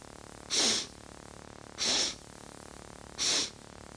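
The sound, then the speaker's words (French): Three sniffing abdominal inhalations through the nose during a breathing exercise. Each is a short, sharp, airy hiss, and they are evenly spaced about a second and a quarter apart over a faint steady hum. “On recommence, inspiration abdominale uniquement, en reniflant, 3 fois.”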